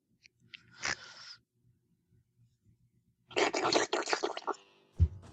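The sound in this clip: A person eating spaghetti, with faint wet chewing and mouth noises in two short bursts separated by a quiet pause, then a soft low thump.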